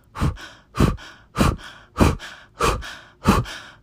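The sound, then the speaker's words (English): Breathwork blow breath like blowing out a candle: six breathy, forceful exhales through the mouth in a steady, even rhythm, each a loud rush of air that quickly fades out. “So that blow breath is going to sound like this.”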